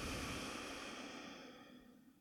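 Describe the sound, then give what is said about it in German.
A slow, deep exhalation during a guided breathing exercise: a soft, breathy rush that gradually fades over about two seconds. “Nimm ein paar tiefere Atemzüge jetzt in den Herzraum ein und aus.”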